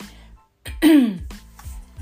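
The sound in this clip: A single harsh throat clearing, loud and rasping, lasts under a second. Quieter breathy vocal sounds come before and after it.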